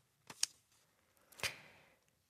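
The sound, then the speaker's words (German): A paper envelope being torn open: a couple of short, crisp papery rips, the second followed by a softer trailing rustle, faint against near silence. “So, dann mache ich mal noch einen Umschlag auf.”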